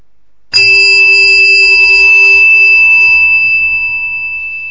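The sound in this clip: A single loud strike of a temple bell during a Buddhist meditation session blooms into a long, steady ringing tone with clear overtones that slowly fades.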